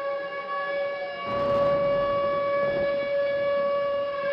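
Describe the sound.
A Midwest tornado warning siren wails loudly as a sustained, steady-pitched tone with rich overtones, droning continuously on its own.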